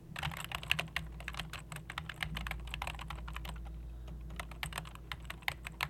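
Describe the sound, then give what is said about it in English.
Computer keyboard typing as a name is entered into IMDb: many dense, irregular key clicks run throughout over a steady low hum, with no talking. “Can you give me her name again? I'm going to type it in IMDb, please.”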